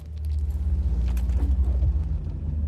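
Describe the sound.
Car driving, heard as a steady, low droning engine rumble with a faint rhythmic throb and light road noise throughout.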